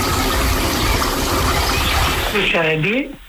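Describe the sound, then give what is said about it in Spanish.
Tap water runs loudly from an outdoor foot shower at the beach in Águilas, Murcia, a steady rushing hiss that stops near the end as a voice begins to speak. “Efectivamente, ducha de pies en Águilas, Murcia.”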